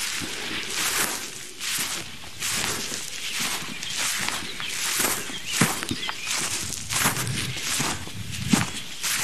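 Footsteps crunch along a forest path on a morning uphill walk, with many steady, evenly paced steps over a constant soft outdoor hiss.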